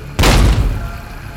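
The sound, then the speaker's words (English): A grenade explodes in one heavy, deep boom that hits abruptly, then rumbles and fades over about a second. “We'll see what some grenades do first. Fire in the hole!”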